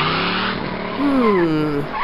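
Car tires skidding while driving, a loud sustained screech with sweeping, wavering squeal tones over a steady roar of motion.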